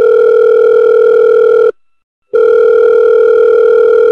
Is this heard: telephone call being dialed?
yes